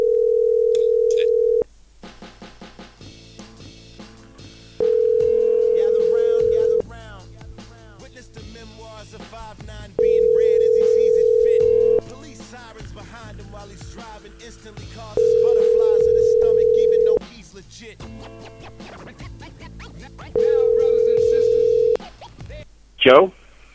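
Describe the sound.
A telephone tone sounds while a call is placed: five steady, identical tone bursts of about two seconds each, separated by quieter gaps. Voices and other sounds come through between the tones.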